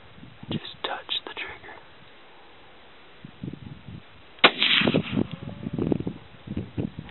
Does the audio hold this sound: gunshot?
yes